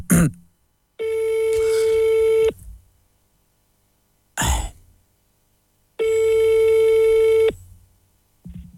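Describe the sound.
Telephone ringback tone heard while a call is placed: two long, steady, buzzy tones of about a second and a half each, separated by a pause with brief soft noises, with no talk.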